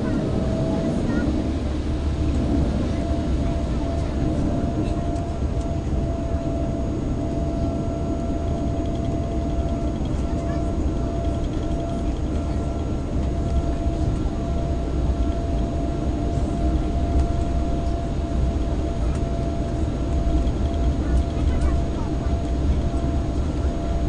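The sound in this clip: A steady, loud engine roar fills the cabin of an airliner during takeoff, a dense, unbroken drone that holds at an even level for the whole stretch without distinct events.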